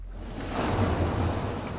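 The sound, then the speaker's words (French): Waves wash over sand in a steady, hissing surf that swells slightly and then holds as a broad, continuous wash with a low rumble underneath. “L'eau qui arrive emporte tout avec elle, pour laisser le sable lisse et effacé”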